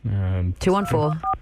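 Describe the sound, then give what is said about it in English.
A voice imitates telephone keypad dialing tones with quick sung syllables. One short, clean two-tone keypad beep follows near the end. “That number was hard for you to dial, wasn't it?”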